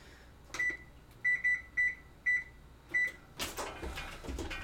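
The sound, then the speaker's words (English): An oven beeps as it is switched on, giving a series of short, high electronic beeps at uneven intervals from button presses, followed by a burst of clattering and rustling handling noise. “So I'm just getting the oven turned on.”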